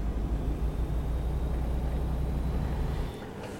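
A truck's engine rumbles steadily as it drives off to pick up a load, a constant low drone that drops slightly in loudness near the end.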